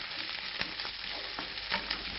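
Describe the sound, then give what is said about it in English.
Halved Brussels sprouts fry in a hot pan with a steady, bright sizzle, broken by a few sharper crackles and pops, with no talking. “And then I'm going to put the heat on over here and I'm going to fry them just a little bit.”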